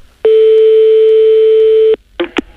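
A telephone line tone as a caller rings back: one loud, steady tone held for about two seconds, then cut off, followed by a couple of short blips.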